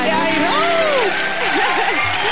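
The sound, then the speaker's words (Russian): Applause for a quiz winner on a radio show, a steady wash of clapping with sliding, pitched tones rising and falling above it. “Мы тобой гордимся, но не только аплодисментами готовы тебя порадовать.”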